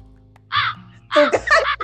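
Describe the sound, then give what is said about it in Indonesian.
Harsh crow caws: one short call, then a louder cluster of several rough, raspy caws in quick succession, standing alone over a faint low background hum. “gagak aja udah, gagak aja yang suruh temenin aku udah”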